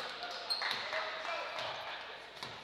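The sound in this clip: A basketball is dribbled on a gym court during a boys' high school game between Exeter and Elizabethtown. Faint bounces sit within a steady wash of crowd and gym noise.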